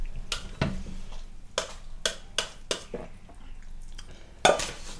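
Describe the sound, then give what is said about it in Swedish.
Spoon clinking against a bowl while sugar is stirred into light soy sauce: a series of sharp, bright taps at an irregular pace, with a louder knock near the end and a soft scraping hum between strikes. “Så, då har vi alltså tagit då den ljusa sojan och så rör du ut sockret i den.”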